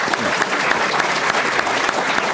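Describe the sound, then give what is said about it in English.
An audience gives a round of applause at a St. Patrick's Day speaking event. The clapping is steady and dense, with many hands sounding together at an even level from start to finish. “Round of applause for Marianne.”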